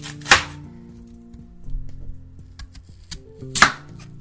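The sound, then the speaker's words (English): Two sharp knife chops cutting through a mushroom, spaced about three seconds apart, with quiet steady tones humming underneath between the strikes. “Can you help me to cut this mushroom?”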